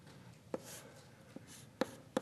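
Writing on a board during a lecture: faint scratchy strokes with a few sharper taps where the writing tool meets the surface, quiet over a steady low background hiss.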